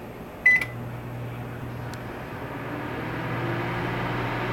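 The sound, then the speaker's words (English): A microwave oven starting up: one short high beep as the start button is pressed, then the oven's steady low hum and whir running on alone. “I close the oven. Now it won't start until I hit the start button, which is in the lower right hand corner. I'll press it now.”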